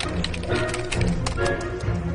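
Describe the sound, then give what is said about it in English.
Rapid typing on a computer keyboard as questions are entered, a dense run of many sharp, uneven clicks and taps at a steady, busy pace with no voices. “The cat is connected to the computer. So just type in the questions.”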